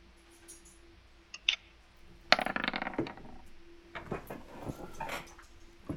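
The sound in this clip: A ten-sided die is rolled for damage in a tabletop role-playing game: a couple of small clicks, then a quick rattling clatter as it tumbles and settles, fairly faint.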